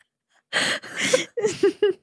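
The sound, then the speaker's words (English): Wheezing, gasping breaths after a bout of laughter, from someone whose large stomach presses on their lungs: a few short voiced bursts with a squeaky, high-pitched edge, separated by brief catches of breath. “I gotta catch my breath. When I laugh now, because my stomach, I feel like it's huge, it like crushes my lungs and I wheeze now.”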